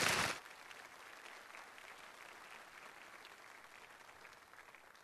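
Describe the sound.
An audience gives a warm welcome to a speaker with applause. Dense, steady clapping holds evenly throughout.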